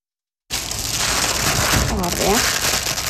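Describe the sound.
Rustling and crinkling as 400 brand-new pairs of solar eclipse glasses are unpacked from a box at the Atlantic Sea-Park in Ålesund. A dense, steady crackle runs throughout, with a brief voice partway through.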